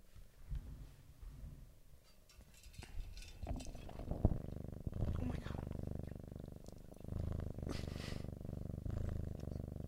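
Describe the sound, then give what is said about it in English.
A cat purring in a low, quiet rumble that comes and goes intermittently, growing steadier and more continuous in the second half. “just an intermittent purring moment.”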